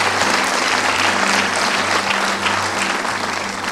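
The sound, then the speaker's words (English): Congregation applause in a church, a loud, dense wash of clapping that stays steady and even from start to finish with no speech over it. “Can we give it up to them? Welcome to the family of God.”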